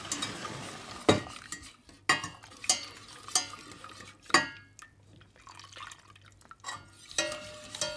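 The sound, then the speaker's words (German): Pudding mixture being stirred into hot milk in a pot, with several distinct scraping, clinking strokes of a utensil against the pot, separated by brief pauses over faint liquid sloshing. “Und dann kommt die Masse ganz langsam zu der Milch in den Topf. Achtung! Dabei weiter kräftig rühren.”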